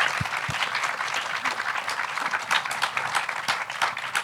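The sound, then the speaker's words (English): An audience claps to welcome a panel at a sustainable housing talk, giving steady, dense applause of many hands at a moderate, even level throughout, with a couple of low thumps at the start. “So maybe put your hands together to welcome our panel.”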